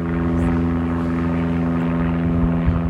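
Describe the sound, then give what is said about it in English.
A plane flying over East Haven near Tweed New Haven Airport gives a loud, steady droning engine hum with strong low tonal harmonics that holds evenly throughout. “Yep, that's a plane flying over neighboring East Haven.”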